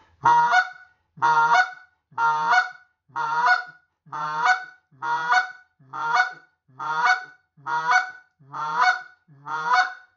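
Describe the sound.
A goose call played on an "old man" model imitates goose clucks in a steady series of sharp, honking notes, one roughly every second at an even rhythm, heard alone.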